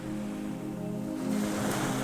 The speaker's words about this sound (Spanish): Entre la espuma y el vaivén de las olas